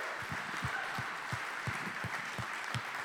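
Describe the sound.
Applause from an audience rising in a standing ovation to welcome a guest speaker at an Assemblies of God gathering: dense, steady clapping that holds at an even level throughout.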